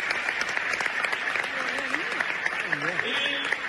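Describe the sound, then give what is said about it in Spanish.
Applause honours an under-12 girls' football player, an Andalusian runner-up, at a community ceremony. A steady rattle of clapping runs throughout, with people talking over it. “En nombre de ella, este aplauso para nuestra chica, la sub-12.”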